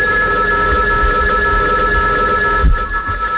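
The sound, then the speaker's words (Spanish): A telephone rings in a continuous, steady, bright electronic tone that holds evenly throughout, with no voices. “Voy a coger este teléfono”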